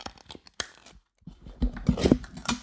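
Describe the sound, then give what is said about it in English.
A can of soil is opened with crinkly tearing and crunching, a few short bursts early on, then a pause and a louder, busier stretch of crackling rustles. “I have a can here. It's a soil can, which is kind of interesting. Here we go. You ready for this ASMR?”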